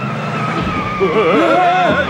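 A car engine revs hard as it pulls away at full throttle after picking up passengers on a road. The tone is loud and wavering, with the pitch swooping up and down through repeated revs.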